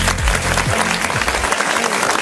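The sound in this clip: Applause fills the whole stretch as a steady, dense patter of many clapping hands at even loudness.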